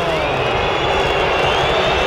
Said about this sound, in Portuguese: Vaias da Fiel. Na casa Itaquera, o Santos vence o primeiro clássico do ano